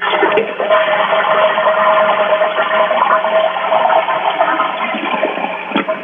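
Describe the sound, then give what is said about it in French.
Toilet flushing, a steady loud rush of water pouring through the bowl that continues for the whole six seconds without a break, with no voices over it. “Pouvez-vous, dans ce cas-là, juste flusher la toilette, comme on dit en bon québécois, mettre la toilette près de la selle? Pour qu'on puisse juste entendre le débit d'eau, s'il vous plaît.”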